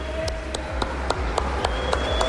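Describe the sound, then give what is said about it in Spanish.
Audience clapping in a steady rhythm, about eight even beats at a brisk pace, over a continuous background crowd noise. “Un aplauso para el público.”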